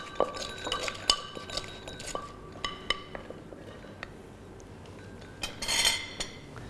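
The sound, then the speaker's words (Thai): Pounding Thai papaya salad with dried shrimp and peanuts in a mortar: a few irregular knocks and sharp clinks, with a denser burst of clattering near the end and no talk. “ขั้นตอนสุดท้ายที่ขาดไม่ได้เลยก็คือกุ้งแห้งและถั่วลิสงนะครับอันนี้คุณครูก็จะใส่ลงไปอย่างละ1ช้อนเพื่อเพิ่มสีสันและก็รสชาตินั่นเองครับเสร็จเรียบร้อยก็โขลกอีกครั้งนึงครับ”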